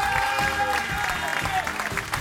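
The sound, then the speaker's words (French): Audience applause welcoming a performer onto the stage at a youth and culture centre: a steady wash of clapping throughout, blended with sustained tones in the background. “s'il vous plaît, sous vos applaudissements.”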